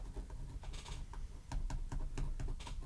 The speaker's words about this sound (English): I feel like you're just tapping the table.